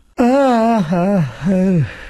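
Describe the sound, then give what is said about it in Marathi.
A big yawn from a tired, sleepy man standing with his eyes closing. It is a loud, drawn-out voiced sound whose pitch wavers and swells over a few long stretches before trailing off. “मोठी जांभई देऊन उभ्या उभ्या डोळे मिटत”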